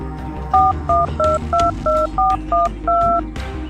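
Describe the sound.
Telephone number being dialled on a touch-tone keypad: eight short, evenly spaced two-tone beeps in a quick regular rhythm over a low background hum.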